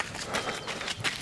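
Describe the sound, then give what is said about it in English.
Quick, rhythmic footsteps of a runner on a wintry morning run, each stride a soft crunching thud in an even, rapid pattern. “This is the sound of a wintry morning run.”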